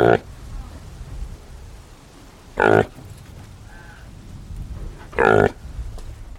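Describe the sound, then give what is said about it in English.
Reindeer calf grunting: three short, loud, harsh grunts spaced evenly a few seconds apart, standing out over a steady low background hiss. “A calf grunting. This one.”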